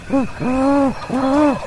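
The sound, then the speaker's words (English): A man's voice imitates a great horned owl during a turkey hunt: three deep, breathy hoots, the first short and the next two longer and drawn out, loud and resonant with no other voices. “He takes a deep breath and hoots like a great horned owl.”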